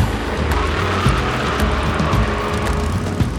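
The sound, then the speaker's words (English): A car speeds off during a police chase on a boulevard, its engine and road noise roaring in a loud, steady rush that holds without pause. “She speeds off down Olympic Boulevard, the officer hot on her tail.”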